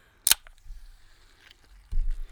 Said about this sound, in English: I liked the sound of that can opening.